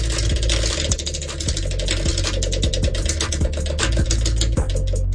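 A prize wheel spins with a steady, repeating run of ratcheting mechanical clicks over a dense, loud background hum.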